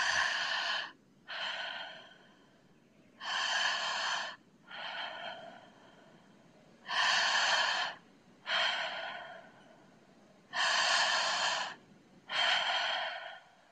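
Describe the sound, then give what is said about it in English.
Deep belly breathing through the mouth, four slow inhale-and-exhale cycles heard as eight separate airy rushes of breath with short pauses between them, clear and alone with no talking. “Okay, so that's how we'll breathe. And we'll do 30 of those together. And you'll hear me breathing”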